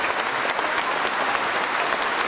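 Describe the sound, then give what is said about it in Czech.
Concert audience applauding after the world premiere of a new symphonic composition at a festival: dense, sustained clapping at an even, steady level throughout, with no voices standing out. “Potlesk po její premiéře trval několik minut. Ještě déle pak diváci tleskali po skončení celého koncertu.”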